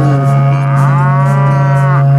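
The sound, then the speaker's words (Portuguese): A berrante cattle horn sounds one long, loud, low note with a buzzy, moo-like tone, held steadily for the whole stretch with slight wavering. “Toca o berrante, ronco desse povo.”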